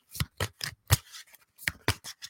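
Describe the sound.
Large decks of cards are shuffled by hand, without a bridge riffle, by someone whose hands are too small for the usual method. The result is a quick, uneven series of crisp, papery slaps and rustles, separated by brief pauses.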